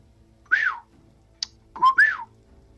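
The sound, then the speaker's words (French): Whistling from an elf: two short whistled phrases that swoop up and fall away, with a brief sharp click between them and no talk. “C'est le sifflement de l'elfe? Oui. L'elfe, okay.”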